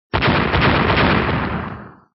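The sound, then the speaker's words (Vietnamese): Loud explosive blasts that merge into one continuous roar: the sound erupts abruptly, rumbles heavily for about two seconds, then fades out, with no voices. “Những tiếng nổ vang liên tiếp vang lên.”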